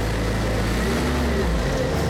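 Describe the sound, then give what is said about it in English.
A snowcat's engine runs with a steady, loud, low mechanical rumble and a constant hum, with no break over the short stretch. “As he climbs in, the driver starts the engine.”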